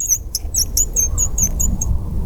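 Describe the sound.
High, squeaky chirping from a homemade wildlife lure call used to attract robins at a snow-covered clearing. Many short, thin peeps repeat in quick bursts over a steady low rumble.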